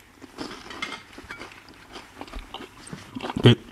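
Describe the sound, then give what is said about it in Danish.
Someone chews a larch bolete mushroom with soft, uneven crunches and wet mouth sounds, ending in a louder bite near the end. “Og så var den anden, det var en rørhat. En lærkerørhat. Var det ikke sådan, det var? Den prøver vi også lige.”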